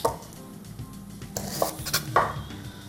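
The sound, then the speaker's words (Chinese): A knife slices a piece of carrot into thin pieces during cooking: a few crisp cutting knocks rise over a steady background of kitchen clatter and utensil noise. “然后会切个薄片，搭个颜色啦。”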